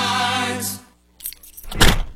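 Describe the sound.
Car keys jangle in a short, bright metallic rattle that swells and fades within about a second. A low hum comes just before it.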